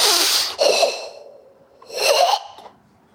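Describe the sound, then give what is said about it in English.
Forceful karate-style breathing exhales, hissy breathy bursts pushed out hard and clamped tight at the end, repeated a few times on their own with no talk. “The way that I was taught to breathe when I did karate for a long time is like,”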